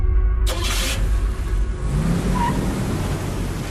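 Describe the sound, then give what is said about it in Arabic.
A car accelerates hard, driven fast as if on a race track. A loud, continuous roar of engine and road noise carries throughout, with a brief higher whoosh near the start. “أوف أوف، الله يهديك، تسوق وكأنك في حلبة سباق.”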